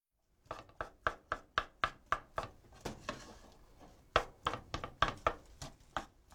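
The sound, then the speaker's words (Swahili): A spatula knocks against a pan while cooked rice is separated and mixed with other ingredients. Many sharp taps fall in a steady rhythm, with a short pause midway before the beat resumes. “Baada ya hapo, epua na uongeze wali. Tumia mwiko kutenganisha wali na uchanganye na viambato vingine.”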